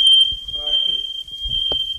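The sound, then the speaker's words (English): A smoke alarm shrieks with one continuous high-pitched tone, set off by cooking smoke from a cast iron griddle over gas stove burners, as people talk beneath it. “It's real smoky in here. After opening all the windows and waving a dish towel over the alarm”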